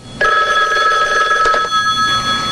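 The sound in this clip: A telephone rings in a basement. The electronic ring starts abruptly and continues loud and steady to the end, with a rapid pulsing texture.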